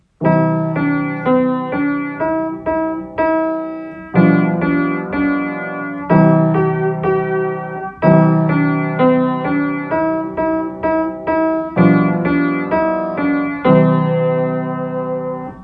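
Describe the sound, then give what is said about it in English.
A simple children's tune plays as a melody over supporting harmony, with many clear struck notes that ring and decay in a steady rhythm, loud and alone with no voices. “But when we put melody, the central idea, With harmony, the supporting details, everything comes together in music and it sounds like this.”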